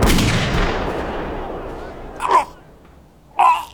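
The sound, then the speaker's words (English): A rifle gunshot: a loud, broad blast already under way at the start, rumbling as it slowly decays over about two seconds. Two short, sharp bursts follow later, each standing out clearly against the fading tail. “Rama raises his rifle. Please, please have mercy on him! Shoot, Rama!”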